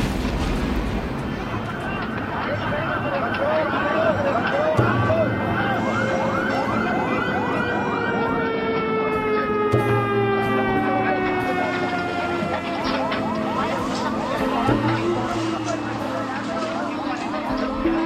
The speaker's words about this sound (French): S'ensuit une formidable explosion, des sirènes, des cris.